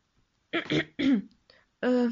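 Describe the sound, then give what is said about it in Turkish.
A man's nervous throat clearing, performed in a narrated story: a few gruff, voiced rasps in quick succession. The last is longer and more tonal. “Gergin gergin boğazını temizledi.”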